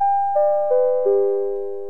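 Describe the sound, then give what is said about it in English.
A theatre intermission chime rings four clear, bell-like tones, each stepping lower in pitch than the last, the final note ringing out and slowly fading. “and there goes the chime”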